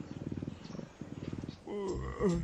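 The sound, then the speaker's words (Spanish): A family of wild cheetahs purring while napping, a low rhythmic pulsing rumble in two bursts, followed by a higher, wavering tonal sound. “Muchos felinos salvajes ronronean, como el guepardo. Cuando una familia de guepardo duerme la siesta, es un fiestorrón.”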